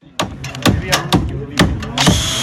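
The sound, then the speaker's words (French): Hammer blows strike wooden planks as volunteers build a wooden sheepfold, with several sharp, loud knocks in an uneven rhythm, each ringing briefly. “Entre les coups de marteau et les planches que l'on ajuste, une bergerie sort peu à peu de la terre.”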